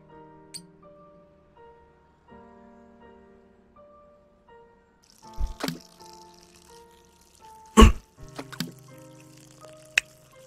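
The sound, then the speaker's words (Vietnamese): Plain water poured into a pot of meat while cooking, heard as a few brief, splashy bursts over a steady tonal background. “Nước lọc đâu nhỉ? Đây rồi. Đổ mấy nước lọc vào đây.”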